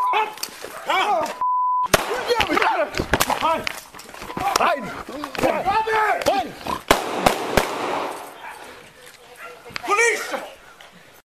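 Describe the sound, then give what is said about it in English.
Gunshots in recorded footage of a police confrontation ring out as several sharp, sudden cracks. They are scattered among a dog's repeated barking and raised voices. “There were exactly 24 seconds between the first call to get on the ground and the very first shot.”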